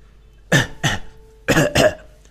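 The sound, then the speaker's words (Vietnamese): Repeated dry coughing from a man, four harsh coughs falling in two quick pairs with a short pause between, loud and alone with no talk. “Đường Văn Viễn bị những lời này của Diệp Thiên làm cho nghẹn họng, liên tục ho khan.”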